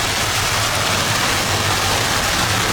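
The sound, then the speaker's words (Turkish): Heavy rain pours down during a severe downpour that caused flooding in Turkey's Black Sea region, a loud, dense and unbroken hiss that stays steady throughout, with a low rumble underneath. “Karadeniz bölgesini vuran şiddetli yağış hayatı felç etti.”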